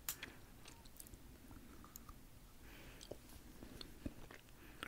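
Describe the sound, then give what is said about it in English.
Soft chewing and biting on German treats, with faint moist crunches and clicks in an irregular rhythm, quiet throughout with no talk. “I'm gonna finish eating that.”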